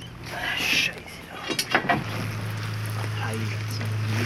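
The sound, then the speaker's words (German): Rumbling and clatter aboard a fishing boat on a lake, with a few knocks and rattles over a steady low drone that settles in and continues to the end. “Nur das Gerumpel auf dem Fischerboot, ein paar Seeschwalbenschreie und dann bald ankommende andere Fischer durchbrechen diese Stille mitten auf dem See, fernab von den Ufern.”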